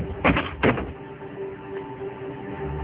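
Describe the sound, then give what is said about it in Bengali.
A door yanked open in one pull: two quick, loud rattling bursts close together, followed by a steady low hum. “তারপর কুহুকে টানতে টানতে দরজার কাছে নিয়ে গিয়ে এক টানে দরজা খুলে,”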